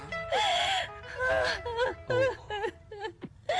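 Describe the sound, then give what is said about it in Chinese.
A young wife weeping and wailing, with long wavering high-pitched cries drawn out in several loud phrases, broken by short sobbing catches toward the end. “借问大哥啊，这隔壁是何人在哭啊？ 是王家媳妇，听说她公婆正逼她改嫁呢。”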